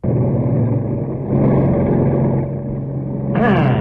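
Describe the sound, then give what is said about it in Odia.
A vehicle reverses, its engine giving a steady hum with a thin tonal whine and a brief louder, brighter surge near the end. “ଗାଡ଼ି back କର।”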